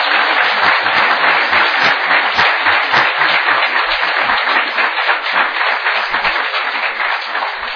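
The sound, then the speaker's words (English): A church audience applauds in a loud, sustained burst of dense clapping that holds steady and eases slightly toward the end. “What I want to do is for the whole congregation to come in and welcome Ken and encourage him. And y'all can go ahead. Give him a hand right now.”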